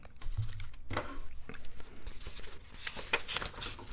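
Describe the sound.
Objects being moved and cleared off a desk: quiet, irregular clicks, taps and light rustling scrapes in an uneven patter.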